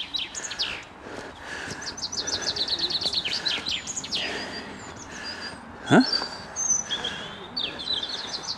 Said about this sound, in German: Ich verstehe nichts, der Vogel ist so laut.